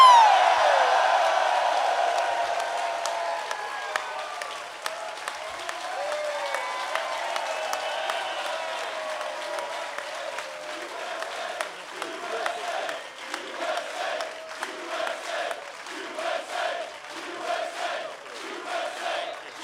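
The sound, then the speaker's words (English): A live audience in Philadelphia applauding and cheering for Julie Ertz, loud at first and gradually thinning. A voice then starts speaking over the scattered remaining claps. “To you, to your continued success, to American glory, let's hear it, Philadelphia, for Julie Ertz.”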